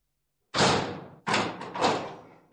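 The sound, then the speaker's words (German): A house front door is shut at a town square, giving three dull, heavy thuds in quick succession, each trailing off with a short fading tail. “Am Ägidienplatz schließt ein dicker Mann die Haustür zu.”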